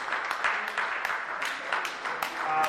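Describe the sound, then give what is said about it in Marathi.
Audience applause at a ceremony: a steady, dense wash of many hands clapping, holding an even loudness throughout. “यांच्यासाठी आपण इथं जोरदार टाळ्या वाजवून त्यांचं अभिनंदन करूया.”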